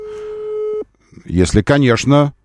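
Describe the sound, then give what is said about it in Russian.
A telephone ringing tone sounds as a call is placed: one steady, mid-pitched continuous tone that stops abruptly. A short pause follows, then a man starts talking. “Вот, и на этом основании я могу звонить ему. Сейчас мы выясним про В-класс.”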